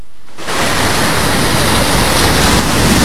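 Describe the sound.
Surf on a beach breaks in abruptly after a brief silence, then holds as a loud, dense, even roar of rushing water with no voices.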